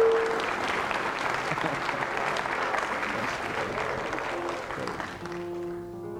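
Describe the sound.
Congregation applause welcoming people back during a church service, a steady, dense clapping that holds for several seconds and then thins toward the end, where a faint sustained tone enters.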